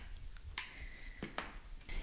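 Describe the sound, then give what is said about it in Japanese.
A spoon clinking faintly against a bowl as seasonings are mixed together: a few light, scattered clicks over quiet background noise. “辛いのがお好きな方はたっぷり入れていただいても構いませんし、まあ、ほんのちょっと効かせても香りがするので美味しいと思います。これを混ぜ合わせておきましょう。”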